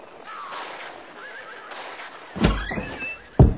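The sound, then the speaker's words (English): A pony whinnies in a long, wavering neigh that rises and falls, then a few heavy dull thumps break in near the end. “Ah, look at that, huh? A pony.”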